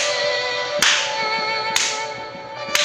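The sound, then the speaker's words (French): Three sharp, evenly spaced hand claps from people in a jumping exercise ring out over a steady background tone. “Alors à vous, quatre fois et on tape dans les mains,”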